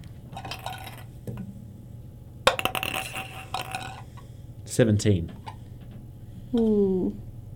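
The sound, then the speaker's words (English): A d20 die rolled for a tabletop roleplaying game gives a burst of rapid, bright clicking rattles as it tumbles and settles, with people talking before and after. “So roll a d20 for that one.”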